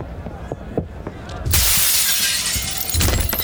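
Glass shatters as a window is broken by someone climbing through it. Quiet rustling leads into a sudden loud crash, followed by a sustained spray of tinkling debris and a second burst near the end.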